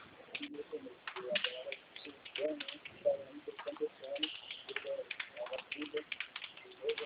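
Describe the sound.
Typing on a computer keyboard produces rapid, irregular clicks and taps throughout, over a muffled voice in the background.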